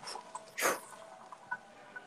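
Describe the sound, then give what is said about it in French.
A single short, sharp puff of breath blown out during a guided alignment meditation, brief and breathy, followed by faint quiet sounds. “Et on souffle.”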